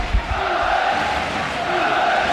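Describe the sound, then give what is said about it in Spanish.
Alavés football fans at Mendizorroza stadium cheer their team in a sustained roar of many voices, loud and unbroken for the whole moment. “despedida del público en Mendizorroza, animando a los suyos de cara a ese vital encuentro. Así suena Mendy.”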